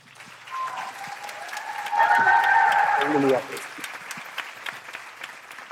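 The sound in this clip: An audience applauds a young children's singing group coming out on stage. The steady patter of clapping swells for a moment midway, and a voice talks over it.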